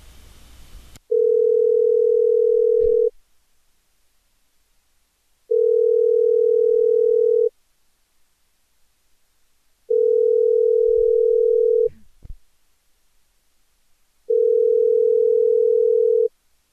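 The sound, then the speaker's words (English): Telephone line tone while a call is being placed: four steady mid-pitched tones, each about two seconds long, separated by quiet gaps of similar length, with a few faint clicks between them. “What is taking so long for the phone call?”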